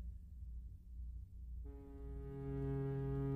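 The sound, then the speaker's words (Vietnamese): A ship's horn sounds as a ship pulls away from port: after a stretch of low rumbling background, a steady, deep, buzzing blast starts and holds loud until the end. “Tiếng còi tàu lại rít lên lần nữa, rồi chiếc tàu từ từ rời bến”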